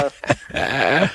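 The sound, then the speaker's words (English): A dog gives a few brief, sharp yips, then a longer wavering whine, moderately loud and without other sounds around it. “One of my dogs thinks I'm upset. I'm not upset. It's okay.”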